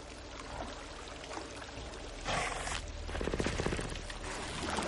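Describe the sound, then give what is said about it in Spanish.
Water splashes and churns as a creature submerges, with a steady rushing wash, a louder surge midway through and continued agitation afterward. “El monstruo se sumerge en el agua.”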